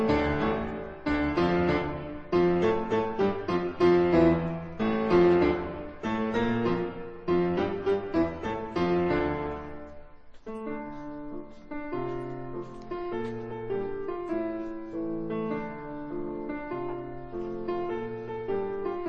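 Solo piano playing from a set of 36 variations by a Polish composer born in 1938, built on a political song theme. Dense, forceful chords drive the first half, then a brief pause leads into a quieter, more sustained passage.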